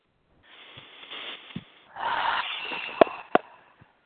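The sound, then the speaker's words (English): Slow, deep breathing during a breathing exercise: a soft, drawn-out breath in, then a longer, fuller breath out with a few sharp nasal clicks near the end, faint and with no talking. “Take a deep breath. Slow it out and one more.”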